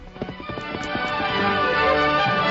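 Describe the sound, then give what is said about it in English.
Horse hooves clip-clopping as a horse gallops away, a quick run of sharp, crisp hoof strikes packed into the first second or so that then thin out and blur into a steadier sound. “A short time later, Dan Reed raced in the store and leaped to the saddle. Come on, Victor!”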